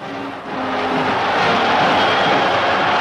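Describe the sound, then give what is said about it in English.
Crowd roar as 100,000 people cheer a 29-year-old New York tennis champion on her return from England, with confetti falling at a street welcome. It is a dense, steady wash of noise that swells slightly after the first half-second and holds throughout. “Confetti falls from the sky. 100,000 cheer the 29-year-old New York girl on her return from England”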